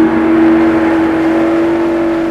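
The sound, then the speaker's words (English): Motorboat engine drones steadily as the boat heads out across shallow Florida Bay toward a channel, leaving a marina and mangroves behind; a loud, even hum with a strong low tone holds throughout without a break. “The boat points toward a channel in the shallow bay.”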